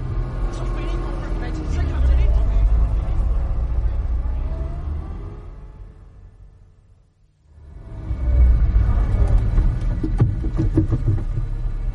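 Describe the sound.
A cab's engine rumbles as it drives slowly round a corner, with people talking over it. The low drone fades away to near silence midway, then rises again and carries on steadily.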